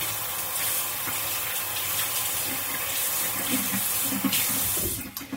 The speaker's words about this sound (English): Currently, I'm dicing up a red bell pepper, removing all of the seeds, rinsing out the insides.